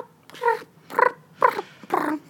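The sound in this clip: A human voice imitates a cat in heat, giving four drawn-out, wavering yowls with short pauses between them. The yowls are moderately loud and there is no other talk.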